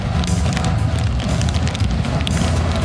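A fire sound effect gives a steady, loud roar with dense crackling noise that runs unbroken throughout, with no voices.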